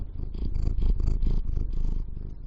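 A cat purring steadily, a continuous low rumble made of fast rhythmic pulses that runs unbroken for the whole stretch, fairly loud and with no voices over it.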